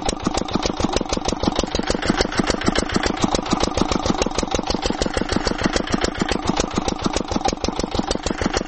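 A well-drilling rig's engine runs in a house yard, a steady fast chugging made of many evenly spaced pulses at a constant pace and level throughout.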